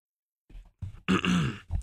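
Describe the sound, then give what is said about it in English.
Throat clearing by a single person: a few short, rough bursts that grow louder into a longer raspy clear, heard alone. “The very official throat clearing”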